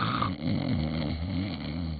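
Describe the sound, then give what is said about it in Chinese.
A voice imitates loud snoring: a single drawn-out, low, rattling snore with a rough, growling texture, heard alone. “不但睡着了，这呼噜震天呐！”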